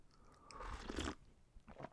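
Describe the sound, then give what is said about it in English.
Faint sips of tea from a cup: a soft, breathy slurp swelling for about half a second, then a shorter, quieter one near the end, with no talk. “Let me just take a sip of my tea.”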